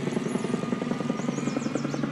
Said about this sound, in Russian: Вертолет улетает.